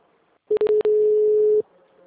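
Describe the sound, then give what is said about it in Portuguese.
A telephone ringing tone sounds while a call is being placed. It is a single steady mid-pitched tone lasting about one second, preceded by a few sharp clicks. Faint noise follows after it stops. “Estou ligando para esse Fabiano. Tá chamando.”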